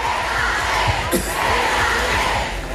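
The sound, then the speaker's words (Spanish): Stadium crowd chanting for Alexia Putellas at the Barça women's Champions League title celebration: a dense, loud, continuous roar of many voices that keeps steady throughout. “muy comentado este momento de la celebración en el que el público pues corea Alexia, quédate.”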